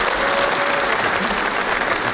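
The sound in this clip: Dense audience applause at a stand-up comedy show, a continuous, even wash of clapping that holds steady at a constant level throughout.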